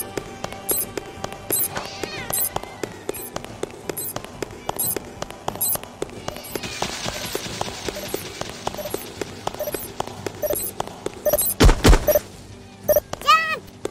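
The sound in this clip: Crashing bursts and thuds as a wall is destroyed in a video game, with many sharp, crackling impacts in quick succession and a heavier cluster of booms near the end.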